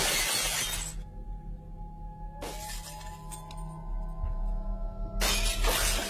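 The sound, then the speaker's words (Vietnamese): A loud crash of something shattering, like breaking glass, comes in several harsh bursts, with ringing clinks lingering between them. “Bác Tuấn đi xuống dưới vườn độ vài phút, bỗng nhiên có tiếng đổ vỡ chát chúa vang lên.”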